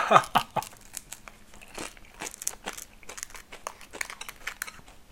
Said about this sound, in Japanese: パンが多くてこれをね食べるのは大変だ